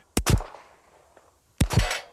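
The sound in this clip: Pistol shots fired during a police officer's annual firearms qualification: two sharp, loud bursts, each a quick double crack, with a longer quiet gap between them.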